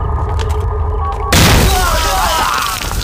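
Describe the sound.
A landmine explodes, one sudden loud boom that cuts in after a quieter opening and continues as a dense, roaring rumble that slowly fades toward the end.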